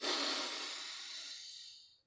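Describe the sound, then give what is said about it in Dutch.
A single long inhale through the right nostril during a breathing exercise, heard as a soft, airy nasal hiss that starts strong and gradually fades out over about two seconds. “Dan mag je je linkerneusgat sluiten. En inademen door je rechterneusgat.”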